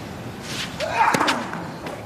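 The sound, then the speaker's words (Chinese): A tennis serve is hit wide for an ace during the first set, with Zverev serving. A single sharp racket impact stands out over a low background murmur. “外角方向的 ace 球”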